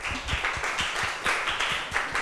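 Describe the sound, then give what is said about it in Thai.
A class of students claps for a classmate, giving a steady burst of many overlapping hand claps at a quick, fairly even rhythm, moderately loud throughout with no talking. “ว้าวลึกซึ้งมากปรบมือให้เพื่อนหน่อยค่ะ”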